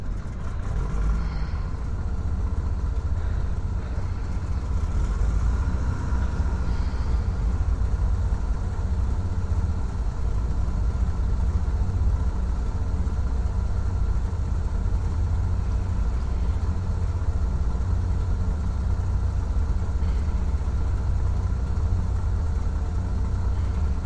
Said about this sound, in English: Captain, beginning the engine start sequence.